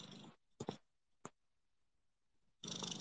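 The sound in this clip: A cat purrs in a few separate stretches of soft, breathy rumbling, split by short quiet gaps and a couple of brief sharp sounds.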